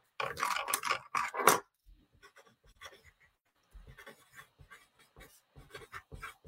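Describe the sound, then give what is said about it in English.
Notes are jotted down by hand: soft, scratchy pen strokes come in short, irregular bursts after a louder rustling at the start, then grow faint. “So the first one is, I'm gonna write these down too.”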